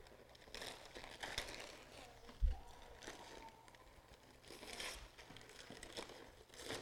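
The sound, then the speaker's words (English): Faint crinkling and crumpling of wrapping paper as a wrapped present is torn open, a soft rustle running throughout with one sharp thump about a third of the way in. “Let's unwrap this beautiful present and let's see what's inside. Do you want to unwrap it for me?”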